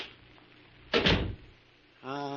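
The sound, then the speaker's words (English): A door closing in a crypt room lands as a single dull thump with a short rumbling tail, followed by a person speaking. “Here is the crypt room, Clark. Come inside and close the door.”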